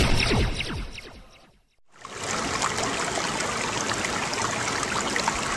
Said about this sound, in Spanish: Agua dulce. Agua cristalina. Agua que se desperdicia todos los días en miles de